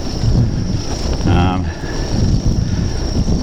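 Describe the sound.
Strong wind buffets the microphone outdoors on the road to Katherine, a loud, continuous low roar and rumble that swells and dips in gusts throughout.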